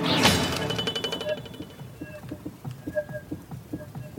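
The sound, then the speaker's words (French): A film sound effect of a sword striking a wall: one sharp metallic hit followed by a wobbling sheet-metal ring whose tones waver and slowly fade. “lorsque l'épée tape au milieu, je vais vous le faire réentendre, on entend une espèce de bruit très caractéristique, un goulou de tôle qui ondule.”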